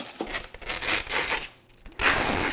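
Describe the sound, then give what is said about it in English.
Packing tape pulled off the roll to seal boxes of produce: a few short scratchy ripping bursts, then a louder, sustained tearing stretch at the end. “Yeah, start taping. Once you're done, start taping them up, and then we can have them good and ready.”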